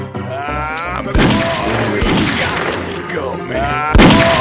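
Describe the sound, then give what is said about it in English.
A few sharp, booming gunshots ring out during an ambush in a Western video game, cutting through a continuous bed of game sound. “He shot me. Had me. Shot me.”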